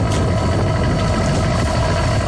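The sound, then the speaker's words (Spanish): Steady low engine drone from a boat leaving the fishing port of Fisterra at night: a dense, unbroken rumble with constant loudness throughout and no distinct events. “Así soa o motor dun barco sair do porto de Fisterra.”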